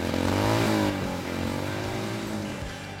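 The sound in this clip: A Harley-Davidson motorcycle engine revs loudly, swelling in the first second and then easing into a steady, throaty rumble that fades slightly toward the end.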